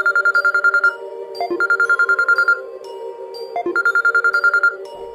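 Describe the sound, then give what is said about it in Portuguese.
A mobile phone ringtone rings at about half past eleven at night: a bright, repeating melody of quick pulsed tones cycling three times, loud and steady, with no voices. “Mais ou menos 11h30 da noite, o meu celular tocou.”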